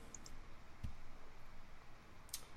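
A few faint mouse clicks on a web link: small sharp ticks, with one fuller, slightly thumpier click near the middle, over quiet background hiss and without talk.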